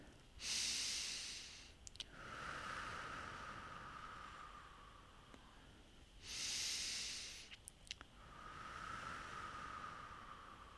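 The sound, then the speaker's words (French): Slow, deep breathing during a guided relaxation, with two long, breathy inhale-and-exhale cycles separated by quieter, softer breath noise, steady and unhurried with no talking. “Inspirez, expirez plusieurs fois.”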